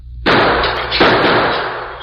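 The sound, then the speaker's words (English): A gunshot shatters a window's glass in a dark, unlit store: a loud, sharp blast opens into a harsh crashing wash, a second burst follows a moment later, and the noise then slowly fades. “He shot the glass out of the window.”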